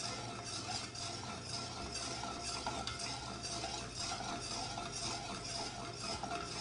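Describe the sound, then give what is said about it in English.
Brown butter swirling in a pan: a faint, steady sizzle and soft stirring sounds with a low hum beneath, continuous and even throughout, with no voices. “Swirl it. It's getting there, you can see it's getting darker.”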